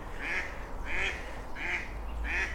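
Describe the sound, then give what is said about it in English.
Female ducks quacking beside a canal at dawn in the Brecon Beacons: four soft, nasal quacks at an even, unhurried rhythm. “it's the females who, the males are silent, it's the females that make the quack, quack, quack.”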